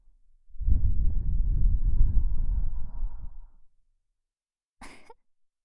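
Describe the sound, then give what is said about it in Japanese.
Breath blown into the ear: a long, steady, airy whoosh lasting about three seconds, then a brief softer burst after a short silence. “ほら、耳に息吹きかけるぞ。”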